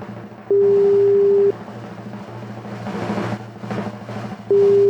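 Ringback tone on a telephone line after a call is dialed: a steady, mid-pitched tone lasts about a second, stops for a few seconds of low background noise, then sounds again.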